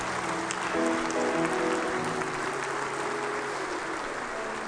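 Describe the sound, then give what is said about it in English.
Congregation applause welcoming new church members, a soft, even wash of clapping with sustained low musical chords underneath, staying fairly level throughout. “Come on, let's put our hands together as we welcome these folks into God's family.”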